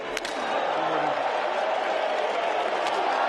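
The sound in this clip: A tennis crowd cheers and roars, urging on a player who keeps bouncing his racket off the court. The broad, sustained wash of voices stays loud and steady throughout.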